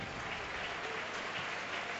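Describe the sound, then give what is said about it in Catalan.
Steady applause from a football crowd for the Villarreal team at a key moment of the match: a dense, even clatter of many hands that holds without a break. “Aplaudiments per a l'equip que està, com diem, arriba al moment clau.”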